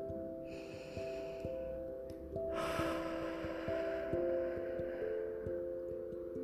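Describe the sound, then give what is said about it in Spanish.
A deep breath is taken during a guided meditation: a long, soft, breathy rush that fades out slowly over a steady, sustained bed of ambient music tones. “Respira profundo.”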